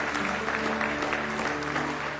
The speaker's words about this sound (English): Give Him one more good hand clap of praise if you love Him.